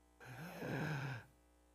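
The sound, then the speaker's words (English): A single deep breath taken during a sermon: one long, drawn inhalation of about a second with a faint voiced, sigh-like edge, very quiet and alone. “And here he goes. Deep breath.”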